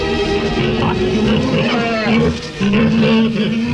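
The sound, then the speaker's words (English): Pigs approaching send out a constant chorus of low, harmonic grunts and calls that stays loud and continuous, with a short dip in level about two-thirds of the way through. “Grisarna närmar sig.”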